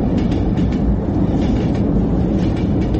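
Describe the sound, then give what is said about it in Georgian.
A train runs on rails with a steady, loud rolling rumble and faint rhythmic clicking throughout, with no voices. “ამ ოთახში მატარებელი მიდის, კედლზე გაკრული ლიანდაგი უსასრულოა.”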